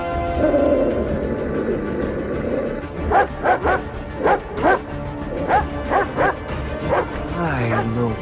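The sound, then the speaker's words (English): A dog barks in many sharp, repeated bursts as it prepares to attack a man, following a few seconds of rough, rumbling noise at the start. “As the dog prepares to attack Jack, he shields his face with his arms.”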